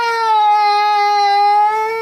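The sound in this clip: A child cries in one long, steady, high-pitched wail that holds for about two seconds. It is loud and heard alone, with no talking.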